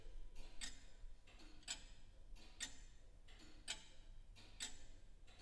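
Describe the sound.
Slow, steady ticking of a mechanical clock whose mechanism had been catching and is now running freely: about one crisp, dry tick per second, evenly spaced, with fainter clicks between, alone over a low hum.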